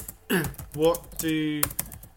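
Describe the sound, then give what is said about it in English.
Clicks of a computer keyboard as a tweet is typed: a few sharp, quick taps mixed in with a person talking. “I'm going to start to write the tweet.”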